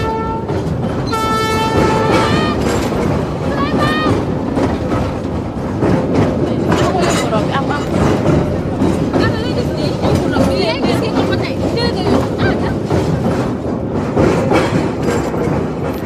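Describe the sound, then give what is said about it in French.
A train passing on a railway at Thiaroye, with a dense, continuous rumble and rattle of wagons throughout and a horn-like tone early on, under voices. “Nous sommes à Tiaroy, une voie ferrée, un train qui passe”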